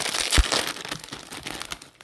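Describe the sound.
Crinkling and crunching plastic as a toy rally car model's mystery package is popped open. A sharp snap comes near the start, then a steady run of rustling crackle fades toward the end. No voices.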